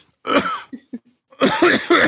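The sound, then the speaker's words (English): Throat clearing from someone with something lodged in the throat: a harsh, rasping burst, two short low grunting catches, then a longer rough, gravelly clearing sound that repeats, heard alone. “I'm sorry. I have something lodged in my throat.”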